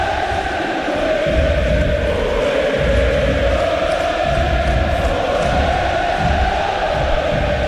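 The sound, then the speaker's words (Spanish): Football stadium crowd roaring at the start of a match with the whole crowd on its feet, a dense, loud, continuous roar with a steady chant-like hum that runs unbroken throughout. “Qué ambiente previo de partido. Qué ambiente de partido. Madre mía, la que están formando en el inicio. Todo el público en pie”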